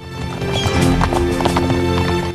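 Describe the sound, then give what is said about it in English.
Horses crossing rocky, curving terrain, their hooves clip-clopping in a busy, uneven rhythm. Many overlapping hoof strikes form a loud, continuous clatter. “Their horses kick up a dust cloud that glows against the bright blue sky.”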